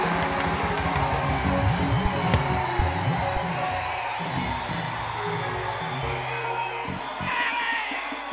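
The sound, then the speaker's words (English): A church audience shouting 'yay' and cheering together, a dense, loud and continuous roar of many excited voices that stays strong throughout. “If you know you are a sign and a wonder, jump up, meet three people, shout, yay!”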